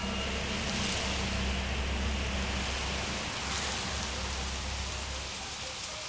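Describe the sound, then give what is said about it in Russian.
Rain falling outside a window: a continuous, dense hiss of water with a low rumble underneath, holding steady throughout with no voices. “а затем пробили часы, и я услышал, как за окном пошел дождь.”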